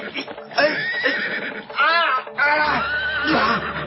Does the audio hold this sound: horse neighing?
yes